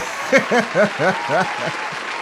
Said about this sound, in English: So let's hit the applause for that one.